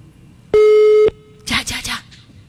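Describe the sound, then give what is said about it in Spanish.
A telephone call to a number that cannot be found gives a single steady electronic tone of about half a second, followed by a short voice. “Va, está llamando. Ay, ¿qué dice? Número no encontrado.”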